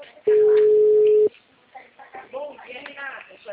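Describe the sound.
A telephone line tone sounds while the dialled number goes unanswered, one steady, pure beep lasting about a second. A person then starts talking once it stops.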